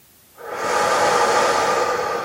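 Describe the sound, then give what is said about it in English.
A deep breath drawn in through the nose during a meditation, a soft airy rush that swells quickly after a short silence and holds at an even, steady level. “begin by just taking a couple of deep breaths. In through your nose”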